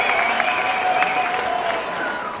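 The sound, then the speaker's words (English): A canned cheering crowd sound effect: dense, continuous applause and cheers, loud and steady throughout, easing off slightly toward the end. “I know it's a little cheesy, but I had to throw the cheer in there.”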